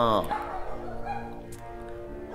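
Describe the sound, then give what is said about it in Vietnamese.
Puppy barking: a few short, high yips and whimpering barks, fairly faint against a tonal background. “bây giờ là chó con sủa rồi”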